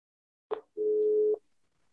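Telephone tone heard while calling a friend: a short click, then a single steady electronic tone for about half a second, followed by silence.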